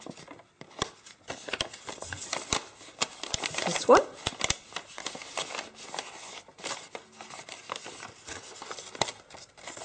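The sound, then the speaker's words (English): Paper being creased into an origami valley fold: many crisp rustles, crinkles and light taps, quiet and irregular, with a sharper cluster of sounds around the middle. “And in the center there is going to be a valley fold.”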